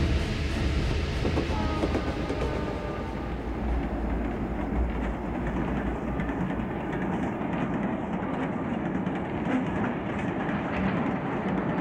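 Moving train carriage from inside, a loud continuous rumble with rhythmic rail clatter running steadily throughout.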